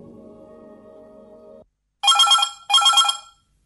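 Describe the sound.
A telephone rings in two bright, loud bursts separated by a short gap, following a low, steady humming tone that cuts off before the first ring.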